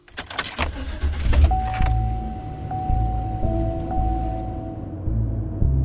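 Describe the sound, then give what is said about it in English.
A car setting off through a residential neighborhood opens with a cluster of clunks and rustles, then settles into a low engine rumble with a thin steady whine running over it. “We just start driving through our neighborhood.”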